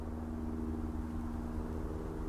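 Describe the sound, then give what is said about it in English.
A faint, steady low rumble of very distant traffic drifts across open country on a fine day. It is a soft, continuous murmur with no distinct events. “If you can hear, there is very distant traffic and a tiny light aircraft”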